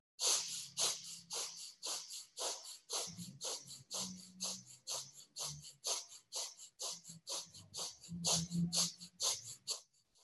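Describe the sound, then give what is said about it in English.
Forceful, rhythmic yoga breathing focused on the navel area, with inhales and exhales of equal strength. Many even, hissing breath pulses follow each other at a steady, quick pace, with no talk over them. “lengthen your spine, focus on the navel area. Inhale it out, exhale it in. Make sure that the sound is equal, so your inhale is just as strong as your exhale.”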